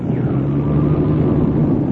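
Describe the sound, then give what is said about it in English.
A failing aircraft motor coming back to life at about 800 feet drones loudly and steadily, a low engine rumble with a sustained hum and a brief high whine early on. “I think this motor's coming back. We're now at about 800 feet.”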